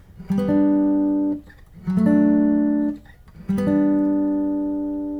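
A G–D–G chord progression played with the melody holding the fifth on every chord: three sustained, ringing chords struck about 1.6 seconds apart, each attack bright and then slowly decaying, with no talking.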